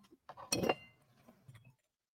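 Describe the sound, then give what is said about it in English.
Glass clinks and rattles as a drinking glass is cleaned before a baijiu tasting: a few short, bright knocks, the loudest cluster in the middle, followed by quieter handling sounds. “All right, I'm gonna have to give my glass a little bit of a clean here and wash that down.”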